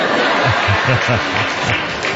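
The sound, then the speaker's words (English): A woman clapping in an audience, a steady patter of hand claps mixed with scattered chuckles and crowd laughter, fairly loud throughout. “That's a woman clapping right there.”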